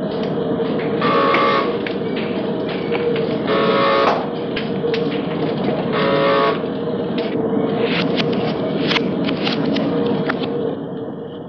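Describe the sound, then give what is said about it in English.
Raw tire rubber for inner tubes being worked round and round through steel rollers: a continuous loud mechanical grind and rumble, broken by repeated bursts of crackling and sticky popping. “put round and round through steel rollers until it's smoothed out to the point where it can be turned into inner tubes. Here's how your tires sound in their formative stage, though it may sound more like bubblegum to you.”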